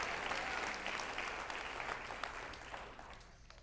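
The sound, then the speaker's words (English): A church audience claps hands in brisk, many-handed applause that starts fairly full and gradually thins out and fades, heard faintly throughout. “Somebody clap your hands. Give God the glory.”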